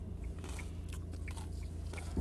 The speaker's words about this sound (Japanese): バギッと、なんか咀嚼音してますが、あの、た焼き梅ポテトが発売していたので、それ食べながら、イヤホンマイクつけて、喋ってます。